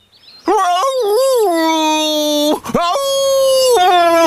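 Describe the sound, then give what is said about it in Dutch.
A voice imitating a dog crying, with long tonal whining wails whose pitch wavers and bends. The loud moaning breaks off briefly about midway, then resumes as another drawn-out wail. “Toen hij een uurtje gelopen had, hoorde hij iemand huilen.”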